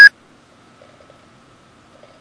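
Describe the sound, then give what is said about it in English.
A single short electronic beep from an answering machine sounds right at the start. A steady high tone is followed by near silence with a few faint low murmurs. “Message erased. At the tone, please re-record.”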